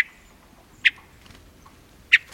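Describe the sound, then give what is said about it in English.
Hermit thrush call notes in a mountain forest in summer: a few short, sharp chips separated by quiet gaps. “Spend time around hermit thrushes in a mountain forest in summer, and you're also likely to hear them make other sounds, such as,”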